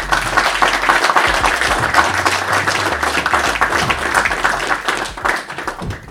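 Audience applause at a live event in Dungannon welcoming Charlie Smyth, a Newry man heading to the NFL combine: dense, loud, steady clapping that fills the whole stretch without a break.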